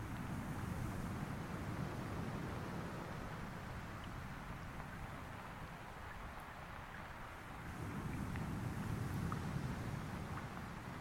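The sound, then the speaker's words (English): Bassy, steady rumbling murmur of distant waves and wind, low and constant, easing slightly midway and swelling again near the end. “But for the distant, bassy murmurs of the waves and wind.”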